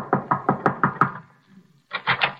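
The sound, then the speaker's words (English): Nervous knuckle taps on an apartment door: six quick, even knocks, a short pause, then three more slightly brighter taps. “As we rejoin Riley now, he is tapping a bit nervously at the door of Miss Jessup's apartment.”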